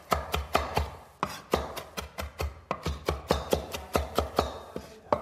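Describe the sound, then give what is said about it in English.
A knife finely chops parsley in a fast, even rhythm: many crisp, quiet strikes land one after another with no talk. “Okay, so just run your knife right through it. You want to make sure that you get a nice fine chop here.”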